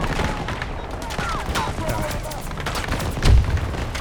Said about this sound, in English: Oh, fucking grenade.